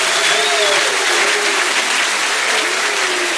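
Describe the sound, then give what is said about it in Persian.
An audience claps hands at a live singing event, producing a dense, even wash of applause that stays loud and steady from start to finish. “یه دست بزن خستگی دست بزن”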